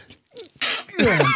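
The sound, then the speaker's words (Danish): A deliberately provoked sneeze: a faint breathy intake, then a sharp, loud, noisy burst, followed by a short voiced sound. “Jeg måtte jo lige holde op på det der med, at man kan nyse på kommando. Jeg vil ikke sige det på kommando, men man kan fremprovokere et nys.”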